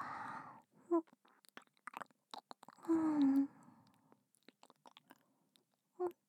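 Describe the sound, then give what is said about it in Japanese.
Chewing on an apple: many sharp, crisp bite and crunch clicks in an uneven rhythm, with a few brief voiced murmurs between them. “あ、これおいしい。リンゴは好き。”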